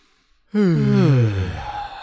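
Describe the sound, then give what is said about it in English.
A deep breath let out as a loud, voiced sigh. It starts abruptly after silence and glides downward in pitch as it trails off. “take a deep breath.”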